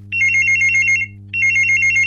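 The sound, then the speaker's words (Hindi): An electronic telephone rings for a radio phone-in call: two warbling, trilling bursts, each about a second long and separated by a short gap, clear and fairly loud over a steady low hum. “तो चलिए बढ़ते हैं phone की तरफ और उठाते हैं calls को और बात करते हैं अपने युवा श्रोताओं से।”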